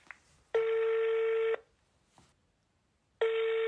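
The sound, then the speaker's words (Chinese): Telephone tones as a number is dialed to place a call: two long, steady electronic tones, the first about a second long and the second cut off at the end, with faint brief sounds in the gap. “那行，那咱们先打这个电话吧。”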